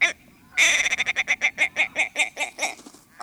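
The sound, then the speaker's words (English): A male willow ptarmigan calls in a rapid series of many loud, nasal, clucking pulses in a steady chuckling rhythm that sounds like laughter, with no other sounds. “This male willow ptarmigan sounds like he might be laughing, or at least doing his best to make others laugh.”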